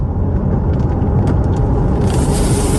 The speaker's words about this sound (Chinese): 然后现在我驾驶黄先生这辆小米苏七马上加速，紧握方向盘。